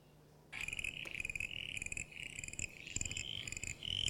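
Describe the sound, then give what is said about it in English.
Eastern common froglets call around Colac in a continuous, high-pitched chorus of rapid, clicking pulses that repeat in quick bursts, with no voices. “this is another guy that's fairly common around Colac, the eastern common froglet.”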